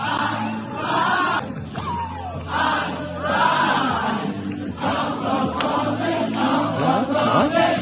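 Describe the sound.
A large crowd in an Italian town chants along to a song played over the streets, a continuous swell of many voices with rising and falling sung phrases and scattered shouts.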